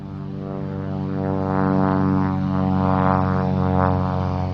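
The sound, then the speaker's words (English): A small single-engine airplane taking off at a regional airport, heard as a steady, buzzing propeller-engine drone with layered harmonic tones that swells slightly in loudness partway through and then holds, with no voices. “That is the sound of a small, single-engine airplane taking off at South Valley Regional Airport.”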